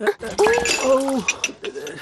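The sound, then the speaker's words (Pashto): Dishes and a yogurt bowl clink as a pile of crockery is carried by hand, a few light clatters mixed into lively talk between people. “اوهو داسې کوي داسې کوي، دومره لوښي دې یو ځای په لاس کې نیولي. لا لا لا لا دا مې مستو کاسه رانه در واخله.”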